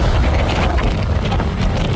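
A wind sound effect: a loud, steady, rushing roar with a heavy low rumble and a faint hiss, continuous throughout with no voices.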